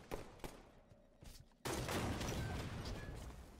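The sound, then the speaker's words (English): Assault rifle gunfire in a video game, fairly quiet overall: a few isolated shots early on, then a sudden sustained burst of rapid fire that runs dense and unbroken to the end. “Oh, I didn't kill that mofo. This overpowered assault rifle garbage is really chapping me.”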